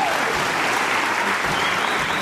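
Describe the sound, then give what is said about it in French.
Audience applause: a dense, crackling wash of many hands clapping together, holding at an even, fairly loud level from start to finish with no break or fade. “C'est là que Miss Liégeois se surpassa pour coordonner ses mouvements et fut applaudie.”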